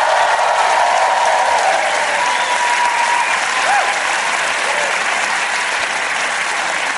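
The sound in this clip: Applause from a live audience at the 92nd Street Y in New York City: a full, even wash of clapping that stays loud and steady throughout.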